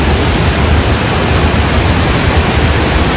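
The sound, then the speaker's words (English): Water flowing through the Gardner Dam spillway: a loud, steady, dense roar of rushing water that holds unbroken throughout. “that's the sound of water flowing through the Gardner Dam spillway. It's the first time that's happened in 6 years.”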